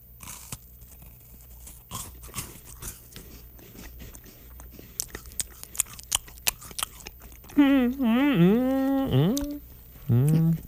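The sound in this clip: Crisp crunching bites and chewing of a chocolate shortbread biscuit during a tasting, many small sharp cracks scattered over several seconds, followed by voiced sounds from the tasters.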